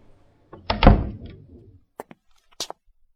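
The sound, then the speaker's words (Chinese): A hospital room door is pushed open with a loud, rumbling swing that fades out, followed by a few short, sharp clicks and knocks. “沉了沉气，推门而入。”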